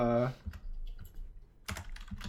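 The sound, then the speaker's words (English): Keystrokes clack on a big, loud computer keyboard: a few sharp, quiet taps in an uneven rhythm. “you can hear my big clacky keyboard, hold on.”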